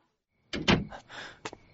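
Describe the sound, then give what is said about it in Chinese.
A dormitory room door being opened: a quick cluster of clunks and rattles, then a sharp click near the end, fairly quiet and with no voices. “盛旺纳闷的开了门，却见石宇抱着一台笔记本电脑”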